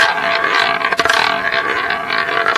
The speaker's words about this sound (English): I mean, here, for example, is a roulette wheel.